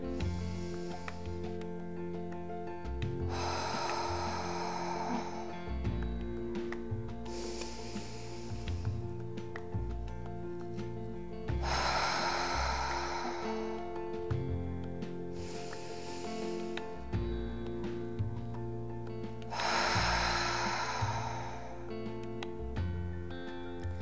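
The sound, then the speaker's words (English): Deep breaths are drawn in, held and let out. A few soft, breathy rushes of air come in slow, regular waves, with quiet pauses between them, over a steady bed of gentle sustained music. “So breathe in everything you can, as much as you can. Hold the breath for 2 seconds and breathe it out.”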